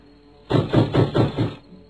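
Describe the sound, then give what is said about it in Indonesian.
Soldiers pound loudly on a wooden door with five heavy, evenly spaced knocks in quick succession, each a deep booming thud. “menuju pintu yang semakin keras diketuk para prajurit Karang Sedana.”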